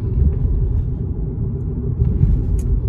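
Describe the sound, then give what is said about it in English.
A car drives with a steady, low rumble that stays continuous and fairly even throughout, with no talking. “Well, we're just driving on through, just going to drive on through to the other side”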